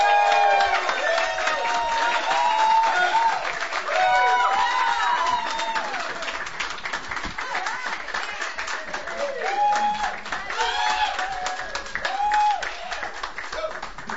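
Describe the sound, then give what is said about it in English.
A live audience at a coffee house open mic night cheers, whoops and applauds in a dense, steady wash of clapping, with high shouted whoops rising above it throughout. “Yeah! We have live crowd tonight.”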